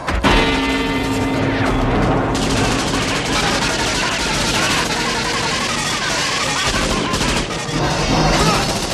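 Machine-gun fire in a film scene strikes a metal gong as a loud, dense stream of rapid shots that continues for the whole stretch.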